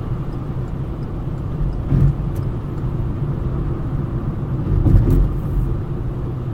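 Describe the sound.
Steady low engine and road rumble from a car driving fast while speeding, with slight swells in loudness partway through.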